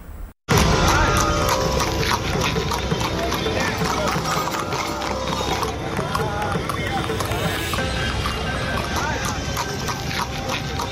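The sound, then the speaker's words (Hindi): Hooves of many horses clip-clop at a trot as they pull carts in a traditional ikka horse-cart race, a dense, rapid, continuous patter of hoof beats under steady crowd noise and voices. “तो तमाम घोड़े, एक से एक नस्ल के घोड़े यहाँ पर दिखाई पड़ रहे हैं”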